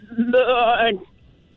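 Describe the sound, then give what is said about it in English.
A single loud goat bleat with a wavering, quavering tone lasts under a second and stands alone, followed by near silence. “Is that a goat? Really weird. I think so.”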